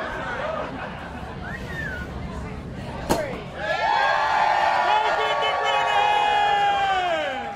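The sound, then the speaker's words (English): A raucous crowd at Brennan's cheers as a champagne bottle is sabered: murmuring chatter, then a single sharp pop, then loud cheering and whoops that swell and hold. “as General Manager Christian Pendleton sabers a bottle of champagne for the raucous crowd.”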